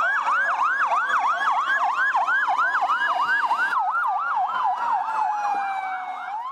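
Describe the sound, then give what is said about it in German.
Ambulance sirens on a city street in Baghdad: a loud, rapidly repeating up-and-down wail over a second, steadier siren tone, continuing throughout and easing slightly in loudness at the end. “Jeder erkennt es. Das sind die Sirenen von Krankenwagen.”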